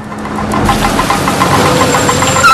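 A car engine rumbles as the car pulls up outside a school, with a rhythmic knocking pulse over a low, steady drone.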